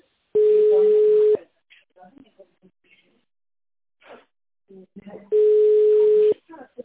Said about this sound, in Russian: Ваш звонок будет переведен на секретаря.